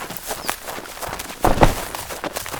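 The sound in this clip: Rapid running footsteps thud along in an uneven patter, with a heavier cluster of impacts midway through.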